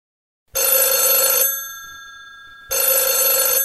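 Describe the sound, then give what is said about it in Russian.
A telephone ringing in two loud, steady bursts of bright electronic bell tone, separated by a pause of more than a second, with the second burst running to the end. “Алло? Ой, это не мне. Это тебе звонок. Возьми трубочку и скажи: «Алло».”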